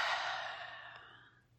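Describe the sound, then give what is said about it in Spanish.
A single deep breath exhaled through the mouth during a guided breathing exercise, a soft airy rush that starts strong and tapers away over about a second and a half, alone with no talk. “inhalando por la nariz, soltando todo el aire por la boca”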